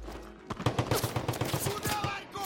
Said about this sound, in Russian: Майор стреляет, подняв автомат над головой.